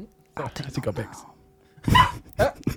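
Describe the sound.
A dog barking: after a person speaks briefly, a couple of loud, abrupt barks follow.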